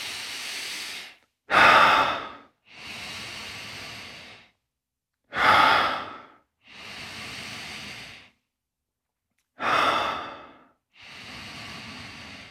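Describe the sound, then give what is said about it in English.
Deep belly breathing during a yoga practice: about three full cycles, each a short, louder, rushing inhale followed by a longer, softer, steady exhale, with quiet gaps between, and a lone exhale at the start. “And just breathe, flood the belly with your breath.”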